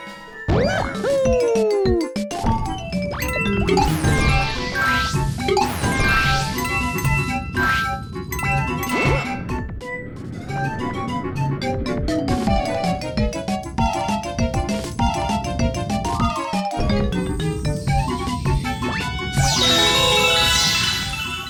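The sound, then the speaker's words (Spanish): Mario video game music whose tempo follows the speed of a rolling ball: a dense, bright melodic score with chiming notes and percussive hits, playing continuously for about twenty seconds. “Pues bien, si nos fijamos, el tempo de la música variará de manera acorde a la velocidad que lleve la esfera en cada momento.”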